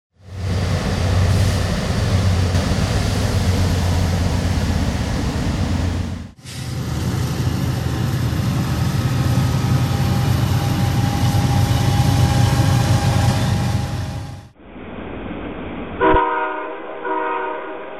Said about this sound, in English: You've been listening to railroad clatter and a warning horn from trains recorded along the New River in Montgomery County, Virginia